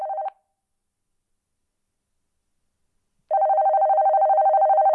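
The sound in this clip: A telephone rings with an electronic tone: a short loud burst, a long silence, then a steady, sustained ring with a slight pulsing, heard alone.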